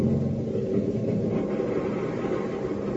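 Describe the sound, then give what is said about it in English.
Motor sled engine rumbling on a frozen, windswept waste, a dense, steady low roar that holds at an even loudness throughout without any clear break. “the motor sled carrying Hop, Tank, and young Captain Kirov comes to a stop at the crest of a small hill. You may cut the motor now, Comrade Harrigan.”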